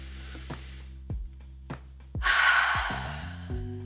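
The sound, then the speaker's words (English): A deep breath drawn in during a guided relaxation moment, heard as one long, breathy inhale of about a second that swells and fades over soft, sustained background music with gentle plucked notes. “just to like take in a deep breath”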